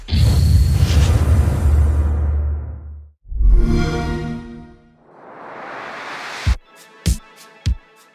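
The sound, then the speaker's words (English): Xbox One X console startup sound: a deep, loud rumbling whoosh gives way to a bright, ringing tonal swell, then a rising airy sweep that ends in three sharp, punchy hits spaced a little apart, with no voices. “That was the Xbox One X startup sound.”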